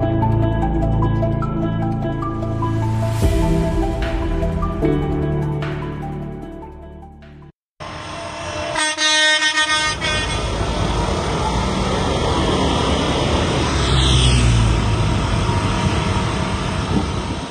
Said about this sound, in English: That was, if you hadn't already guessed, the sound of farmers blocking motorways around Paris this last week